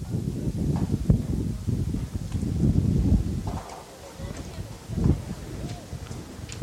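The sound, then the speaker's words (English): Gusting wind at a baseball doubleheader makes a low, rumbling buffeting roar that runs throughout, swelling and easing in uneven surges. “Wind whipping up again. Just picking up here in the last few minutes.”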